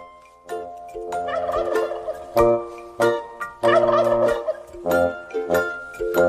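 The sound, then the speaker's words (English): Five fat turkeys gobble by a barn door in loud, rattling bursts, several overlapping, alternating with brief pauses. “Five fat turkeys by the barn door.”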